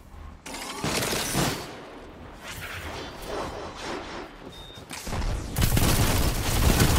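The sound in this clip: Rapid gunfire from the video game Destiny 2 during a zone-capture multiplayer match: dense, overlapping bursts of shots roll on for several seconds, with a brief lull before a louder, heavier barrage near the end.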